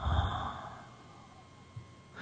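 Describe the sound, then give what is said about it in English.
A deep breath during a guided exercise comes as a brief, breathy sigh right at the start, then trails off into near silence. “And then breathe it in. And let it go.”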